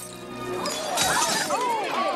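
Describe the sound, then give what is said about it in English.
Glasses smash on the floor as a waiter's drinks tray is knocked over: one sharp, bright crash about halfway through, followed by ringing clinks and tinkles of glass over a busy background. “she crashes into his drinks tray and the glasses smash onto the floor.”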